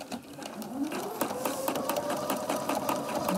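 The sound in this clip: A sewing machine stitching a piece of fabric runs as a fast, steady clatter of many needle strokes over a humming motor, fairly loud and continuous throughout.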